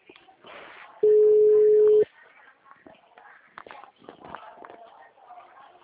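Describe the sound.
Ringback tone of an outgoing telephone call: a single steady mid-pitched beep lasting about one second, surrounded by faint, scattered background sounds.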